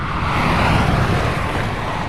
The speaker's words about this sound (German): So, jetzt kommt einer, der ist schnell unterwegs. Der fährt auf der äußersten Bahn, also ist der auch sehr schnell unterwegs, ja. Was kann man dazu sagen? Das ist ein sogenannter Dauerläufer.